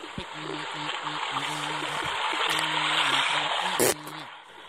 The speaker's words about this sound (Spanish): Y ahora voy a ir a la acequia a escuchar cómo hay de agua.